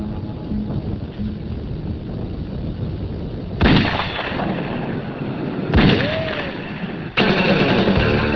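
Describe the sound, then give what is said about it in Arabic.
A .38 snub-nosed revolver fired at a balloon 200 yards away: a few sharp, loud bangs that stand out against a steady, rushing background noise. “باستخدام مسدس قصير السبطانة من العيار 38 سيحاول بوب إصابة بالون من مسافة 200 ياردة.”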